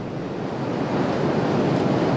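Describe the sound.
Sea waves wash onto a rocky coastline where cut cochayuyo seaweed drifts ashore, a steady, loud, hissing rush that swells slightly, with wind buffeting the microphone.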